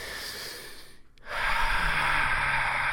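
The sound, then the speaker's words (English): A deep breath drawn in on cue: after a brief silence, a long, airy rush of breathing swells in and holds steady and fairly loud to the end. “Deep breath, people. Let's do this all together now.”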